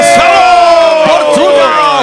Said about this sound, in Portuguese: Palmas para Marcelo Portugal.